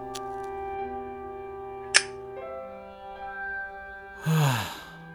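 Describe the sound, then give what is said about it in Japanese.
A cigarette is taken from a pocket and lit. A single sharp click is followed by a short, breathy hissing burst, both faint against sustained musical tones. “ポケットからタバコを取り出して火をつける。”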